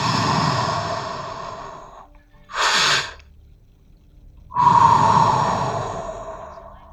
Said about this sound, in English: Let's take a breath in and then elongate your exhale.